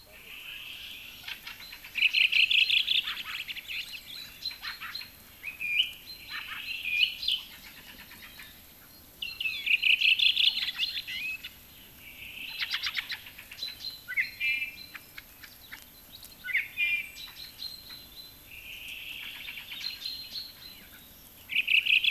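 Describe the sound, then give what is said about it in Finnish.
Calls of a flock of thrushes: many high, rasping, chattering bursts come at irregular intervals over a faint steady background hiss. “Rastasparvi.”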